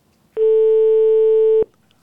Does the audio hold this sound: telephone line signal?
yes